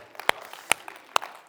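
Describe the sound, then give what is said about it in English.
Three sharp, separate hand claps welcome families joining by video, with quiet gaps between them. “Let's welcome our families in Cuesta and Rio Rancho that are joining us via video, and go ahead, let's welcome them.”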